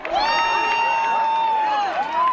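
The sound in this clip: A crowd of about 1,000 people cheers during a total solar eclipse on a large open farm field near Riaza, Segovia province, Spain. Continuous loud cheering carries a long, sustained high cry that dips briefly near the end.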